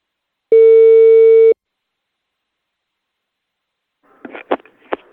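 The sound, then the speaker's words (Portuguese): A telephone line tone heard while placing a call, a single steady, loud electronic beep about one second long, followed by silence and then a few short, faint clicks and bursts. “Eu vou ligar agora pra Dona Prudência.”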